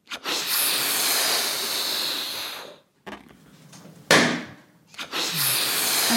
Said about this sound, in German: Das ist eine Silvesterrakete.